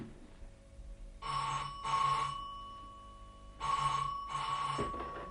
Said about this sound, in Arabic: بيسا خلاص نزل، انا اللي هرد يا قطر. هاتي التليفون.